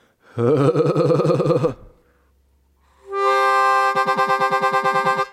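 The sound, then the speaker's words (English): Harmonica playing staccato vibrato on exhaled notes: a wavering held tone, a short pause, then a bright note chopped into rapid, evenly spaced pulses, played loud and clear with nothing else heard. “This is what the staccato vibrato sounds like. Exhaling.”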